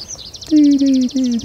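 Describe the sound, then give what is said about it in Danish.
Tree pipit song during its song flight: a rapid run of evenly repeated high notes, the bird descending as it sings, with a steady low tone joining partway through. “Er det skovpiber, der laver den der? Ja. Den daler også, mens den synger. Ja, den flyver op og laver sådan noget sangflugt.”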